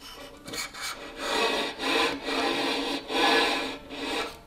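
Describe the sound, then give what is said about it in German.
A violin bow without rosin drawn across the strings makes several breathy, scratchy rubbing strokes that swell and fade in a steady back-and-forth, with no clear pitched tone. “Kolophonium ist ein Naturprodukt, ohne dass die Streichinstrumente keinen Ton hervorbrächten, wie er vorführt.”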